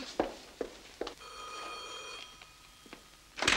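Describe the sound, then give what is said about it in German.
Telephone ringing on an outgoing call: a faint, steady electronic ring tone lasting about a second, with a few soft clicks before and after it and a louder rustle at the end. “Ich muss Schlüter anrufen, das ist doch die Chance.”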